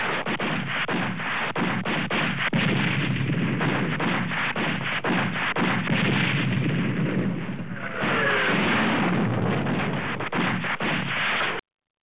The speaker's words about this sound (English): You notice every time you say that, some bombs drop.